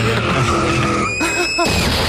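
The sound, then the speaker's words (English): Car tires skid in a sound effect. Continuous squealing carries wavering, sliding tones over a steady roar with no clear impact. “Sound effects for a car crash.”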